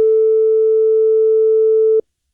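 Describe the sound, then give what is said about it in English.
A steady electronic Emergency Alert System tone sounds alone: a single loud, unwavering pitch that holds for about two seconds, then cuts off abruptly. “So there it was taking over again, and that was the EAS tones starting to fire yeah.”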